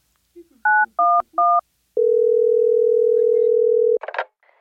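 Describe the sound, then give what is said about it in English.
Three short telephone keypad beeps are followed by a steady held call tone of about two seconds as a call is placed. A brief burst of noise ends it. The tones are clear and loud against silence. “Let me call Abbey Road real quick.”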